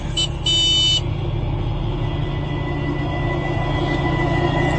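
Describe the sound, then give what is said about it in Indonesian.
A vehicle horn honks in a short burst followed by a longer blast, then gives way to a steady low road and engine rumble. “Aku pun melewatinya sambil mencoba iseng untuk membunyikan klaksonku dan pergi melewatinya.”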